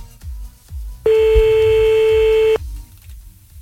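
A telephone ringback tone sounds once as an outgoing call rings, a single steady, loud, mid-pitched tone lasting about a second and a half, set over a soft pulsing low beat.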